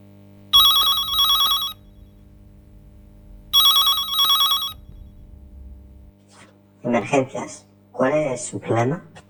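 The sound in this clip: A telephone line rings twice in long, buzzing electronic bursts as a call goes through to the 112 emergency number, then a voice starts talking.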